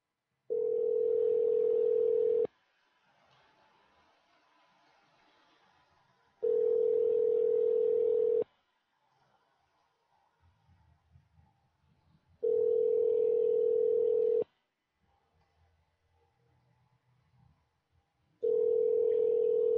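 Telephone tone heard while placing a call: four steady low-pitched tones, each lasting about two seconds and evenly spaced, separated by longer quiet gaps with faint rustling.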